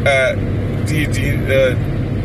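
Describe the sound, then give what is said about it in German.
A car cruises on the motorway at 124 km/h with cruise control on, giving a steady low road and engine drone. Brief voice sounds rise over it. “Guck mal, wir dürfen hier 120 fahren, ich fahre 124 mit Tempomat.”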